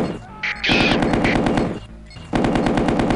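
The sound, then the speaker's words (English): Rapid machine-gun fire in a naval combat video game: two long, dense strings of fast, loud shots separated by a short pause. “Machine gun. Got him.”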